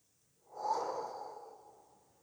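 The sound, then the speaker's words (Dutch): A slow, deep breath drawn in: a soft, airy rush that swells quickly and then tapers gradually over about two seconds, heard alone with no talk. “Vijf seconden inademen. 4 seconden vasthouden.”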